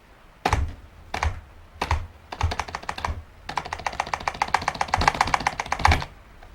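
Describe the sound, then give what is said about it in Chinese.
Typing on a malfunctioning computer keyboard: several slow, heavy, separate key strikes, then a long burst of fast, dense clattering keystrokes that grows louder toward the end, with no voices. “键盘失灵了，”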